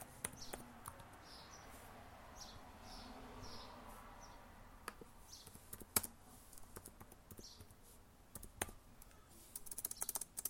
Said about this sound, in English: Man, if I could type, it'd be a whole lot easier.